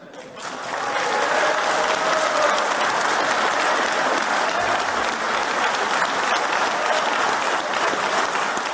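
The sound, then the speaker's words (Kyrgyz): Delegates at a people's assembly noisily applaud in support: dense, sustained clapping that swells within the first second and holds at a steady, loud level to the end, with no clear speech. “Мындай мазмундагы билдирүүлөрдү элдик курултайдын башкы катышуучулары дуулдап колдоого алышкан.”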